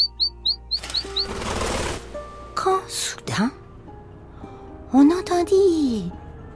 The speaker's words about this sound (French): Et le canari commençait à donner de gros signes de faiblesse dans sa cage.